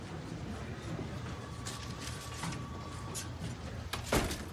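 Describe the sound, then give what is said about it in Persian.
A door pushed shut in an office gives one short thud near the end, rising only a little above steady background noise. “اون در ببند.”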